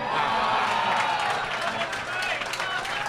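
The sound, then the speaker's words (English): A game-show studio audience erupting in cheers and clapping, a loud, continuous burst of applause with whoops mixed in and voices underneath. “Man, whenever you end a sentence with a movie title that he's in, the audience erupts like a volcano.”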